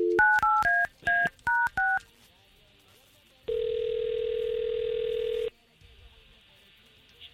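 Touch-tone keypad beeps from a telephone being dialed: a quick run of short, varied tones, a pause, then one long steady tone lasting about two seconds before quiet.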